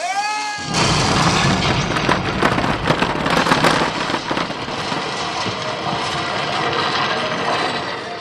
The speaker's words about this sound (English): Push a button near the entrance, and you can set off a really satisfying dynamite explosion.